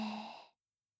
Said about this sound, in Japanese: 吸って。吐いて。